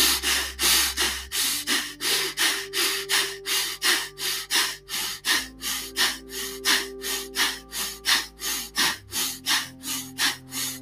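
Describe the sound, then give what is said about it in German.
Kapalabhati yoga breathing in a class: many forceful, short exhalations driven from the diaphragm, with passive inhalations between them. The puffs repeat in a fast, steady, even rhythm and stay loud throughout. “Bei Kapalabhati ist es nur die Ausatmung, die aktiv ist, die Einatmung nicht. Ja? Und die kommt auch vom Zwerchfell. So, also probiert das mal aus kraftvoll kurze Atemzüge.”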